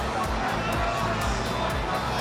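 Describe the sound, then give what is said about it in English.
Crowd of hundreds of people at South Bank, Brisbane, watching Australia play Paraguay in a World Cup group-stage match: a dense, steady murmur of overlapping chatter with no single voice standing out. “And this is the sound of hundreds of people in Brisbane at South Bank”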